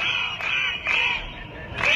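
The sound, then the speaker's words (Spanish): A crowd of protesting teachers in Catalonia: steady crowd din broken by a few loud surges of shouting voices. “Este es el sonido de una nueva jornada de protestas de los profesores en Cataluña.”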